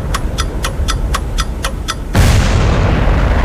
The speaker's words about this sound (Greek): Σταμάτα το χρόνο πριν σκάσει η βόμβα.